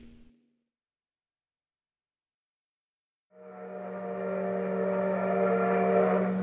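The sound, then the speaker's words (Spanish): A train runs along the rails: after near silence, a loud, steady droning tone with strong harmonics sets in and keeps building, holding to the end. “Corre el tren retumbando por los hierros de la vía.”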